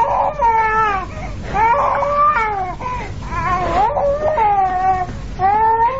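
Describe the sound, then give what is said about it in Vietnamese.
A small boy cries on and on in repeated wavering, high-pitched wails that rise and fall. The cries are loud and run almost without pause, with no talking. “Thằng nhỏ nằm trên giọng cứ khóc hoài.”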